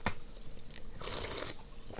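A wet, noisy gulp as a swig of energy drink is taken, a short burst of slurping mouth noise in the middle of a quiet clip, with faint clicks around it.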